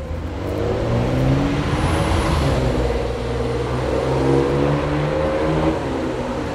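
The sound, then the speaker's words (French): A black Ferrari idles while stopped at a traffic light on a deserted evening street in Neuilly. Its engine gives a steady, low, rumbling drone with a throbbing harmonic hum that stays fairly loud and even throughout, with no voices. “il n'y a personne dans Neuilly à part une Ferrari noire là, arrêtée au feu.”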